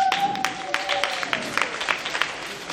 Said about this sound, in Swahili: Mpigieni makofi wa kutimbishia wimbo mzuri.